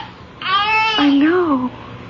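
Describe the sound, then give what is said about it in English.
A baby crying in a hand-carved crib: one short, high, wavering wail that drops into a lower tone, rising and then falling before it stops. “Marion, tell me you hear what I hear. A baby crying right here in this crib.”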